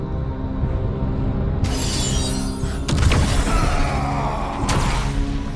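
A crystal shattering and blasting apart in the video game Final Fantasy 16: a sudden bright crash, then a heavier booming burst and another surge, all over a steady low rumble.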